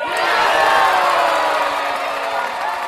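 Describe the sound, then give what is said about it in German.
A crowd roars and cheers after the penalty shootout of a football final in which Ivory Coast beat Ghana 9-8: loud, sustained massed shouting and whooping that swells early, then eases slightly while staying continuous. “Nach dem Elfmeterkrimi im Finale, das die Elfenbeinküste gegen Ghana mit 9-8 gewinnt, liegen sich alle jubelnd in den Armen.”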